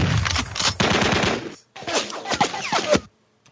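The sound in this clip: A gunshot sound effect rings out as rapid, automatic-style gunfire, loud and dense, in two bursts split by a brief pause.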